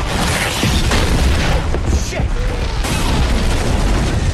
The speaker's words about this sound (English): The boathouse explodes, throwing Blade safely outside.